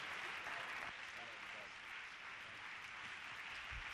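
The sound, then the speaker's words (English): A church audience applauds to welcome a visiting evangelist to the pulpit, with steady, dense clapping from many hands throughout and voices mixed in beneath the clapping. “Will you put your hands together and welcome him to this pulpit?”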